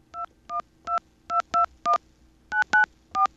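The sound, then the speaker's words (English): Telephone keypad dialing tones as a local 212 number in New York is punched in: nine short, two-pitched beeps in an uneven rhythm, some in quick pairs, alone over faint line hiss. “This is local. I have to dial 212, right? All right, here we go.”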